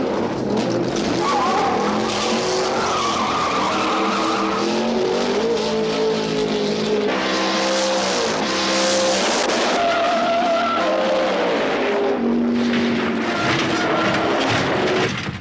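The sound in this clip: Drag racing cars rev hard and skid, and tires squeal over a loud, continuous engine roar. The engine pitch climbs and drops repeatedly throughout.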